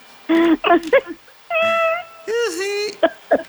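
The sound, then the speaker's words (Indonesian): A cat meows repeatedly, with several loud, clear calls, some short and chirpy and others long and drawn out, separated by brief pauses. “Ada suara merdu itu di samping tak? Itu suara kucing.”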